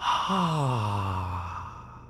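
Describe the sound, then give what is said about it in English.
A slow breath out during a calming breathing exercise: one long, voiced sigh whose pitch glides steadily downward, fairly loud and unhurried, with no talk. “Let's slowly breathe in. Then slowly breathe out.”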